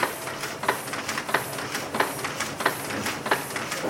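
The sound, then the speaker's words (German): Printing presses run in a daylit print workshop where about twenty people work, giving a steady, repeating mechanical rhythm of hissing, clacking strokes at a regular pace. “Durch die Fenster fällt Tageslicht in die Werkshalle, in der rund 20 Menschen konzentriert an Druckmaschinen arbeiten.”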